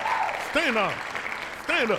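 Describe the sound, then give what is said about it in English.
Audience applause and clapping, a steady wash of hand claps running under a few loud, rising and falling whooping voice cries. “Stand up and clap. Stand up. Stand your ass up and clap.”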